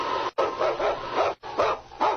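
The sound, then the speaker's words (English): A husky lead dog barks on a snow-covered wilderness trail, with many rapid, loud barks and yips running almost continuously and broken by two brief pauses. “Yukon King, swiftest and strongest lead dog of the Northwest, blazing the trail for Sergeant Preston of the Northwest Mounted Police”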